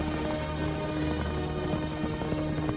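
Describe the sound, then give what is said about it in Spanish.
Hooves of several riders' horses approaching a great wall in a film scene: a continuous clattering clip-clop under a dense, rumbling soundtrack at moderate, steady loudness. “Varios jinetes se aproximan a la gran muralla.”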